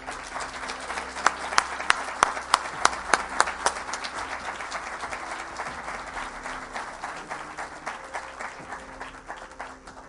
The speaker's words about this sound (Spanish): Le pido un fuerte aplauso para este gran genio de la ovniología que es Salvador Freixedo.